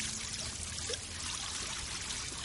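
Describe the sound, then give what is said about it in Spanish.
Tap water runs as a wound is washed, a faint, steady trickle and pour that continues without a break. “Tel se lava la herida. El agua se tiñe de rojo.”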